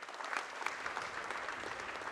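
Audience applause at a technology conference welcomes a company founder and CEO onto the stage, a brief, quiet, even patter of many hands clapping.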